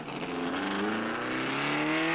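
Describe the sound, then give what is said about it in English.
Cars drag racing outside produce a loud, continuous engine roar that climbs steadily in pitch as they accelerate. “Just some kids drag racing outside, I think”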